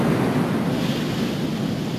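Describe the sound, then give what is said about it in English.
Sea waves rushing up a shingle beach on a misty shore, a steady, loud hiss of surf mixed with wind buffeting, with no talk. “There was a massive disturbance of the water. The sea rushed up the beach. The shingle crackled.”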